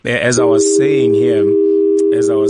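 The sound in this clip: A steady, unbroken phone-line tone holds at one pitch, sounding continuously beneath a voice that speaks over it.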